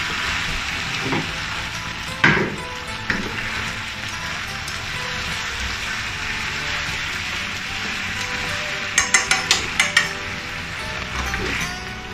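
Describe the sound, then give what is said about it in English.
Tofu being stir-fried in a pan with stir-fry sauce gives a steady, loud sizzle throughout, broken by a few sharp clattering knocks of stirring. “Return the tofu to the pan. Mix well with the stir-fry sauce.”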